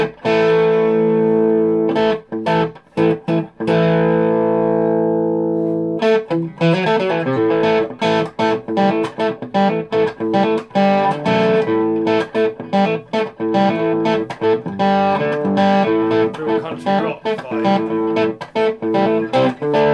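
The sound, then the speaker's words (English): Electric guitar with its tone control wound back, played in a country style: a few single notes ring out, then a steady stream of picked notes and chords, loud and continuous with no talking. “I mean, even the country tone, if you wind back the tone on the guitar a bit.”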